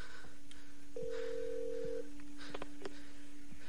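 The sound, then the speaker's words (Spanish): Telephone tones as a call cuts out and the number is redialed: a steady low hum, then a held tone of about a second, followed by a few short dialing beeps, all fairly faint. “La llamada se corta y vuelve a realizar una marcación.”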